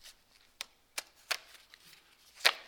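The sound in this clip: A deck of playing cards is shuffled, faint and crisp: a few sharp snaps at irregular intervals, with soft rustling between them.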